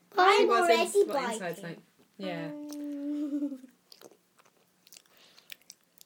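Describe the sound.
A child bites and chews a Wagon Wheel chocolate biscuit, making faint crunches and soft clicks after people talk.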